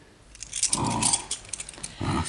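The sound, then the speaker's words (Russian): A bunch of house keys jangling as they are handed over, bright metallic clinks in a few short bursts, fairly faint. “Я тебе, Ерофеич, весь наш дом под присмотр отдаю. Вот ключи.”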